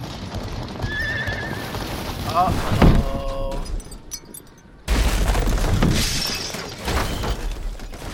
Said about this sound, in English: Uh-oh. That's not good. Sounds like the wagon got destroyed.